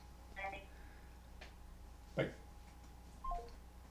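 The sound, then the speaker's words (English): Faint telephone call sounds: a few brief, soft tones like phone dialing or ringing, separated by quiet gaps and a short click-like burst. “Oh, that was a phone call. That was the phone call.”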